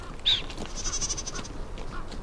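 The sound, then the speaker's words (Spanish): A group of wild Iberian ibex, males and a pregnant female beside juniper shrubs in a park, bleat a few times. The calls are faint and brief over a steady background hiss. “Junto a unos enebros aparece un grupo de cabras montesas.”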